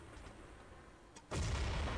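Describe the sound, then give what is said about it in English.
Grenade explosions in a back hallway during a competitive video game match: faint pops give way to a sudden loud blast that keeps rumbling to the end. “As we approach 8 minutes here in the round, grenades being tossed back and forth in the back hallway.”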